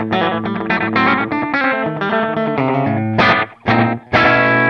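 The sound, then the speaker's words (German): Electric guitar with a slapback echo effect from an FM9 multi-effects unit: a quick run of distorted, harmonically rich notes played loudly, with short repeats trailing the notes and a few brief gaps near the end. “hast du bei dir im FM9 auch ein Slapback?”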